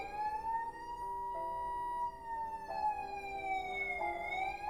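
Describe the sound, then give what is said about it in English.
Emergency vehicle sirens wail as they approach a school: several overlapping sirens with steady, loud tones that glide slowly up and down in pitch throughout. “The sirens cease as they reach the school.”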